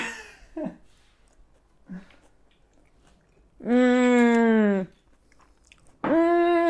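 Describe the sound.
Someone chews a mouthful of summer salad with peach, potato and watercress, producing faint soft crunching and squishing, followed by two long, loud hummed sounds of approval.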